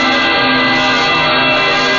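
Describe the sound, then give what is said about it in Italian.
Bells of St. Peter's Basilica ringing for a solemn Urbi et Orbi blessing: a dense, continuous clangor of overlapping tones, somewhat muffled, sustained without pause for the whole clip. “campane della Basilica che accompagnano questo momento così solenne per la Chiesa e per tutti.”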